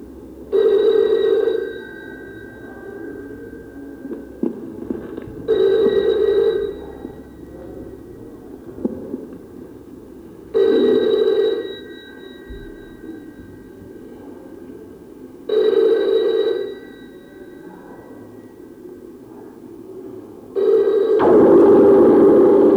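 A telephone rings five times in evenly spaced bursts about five seconds apart, the last ring running to the end, over a faint low hum.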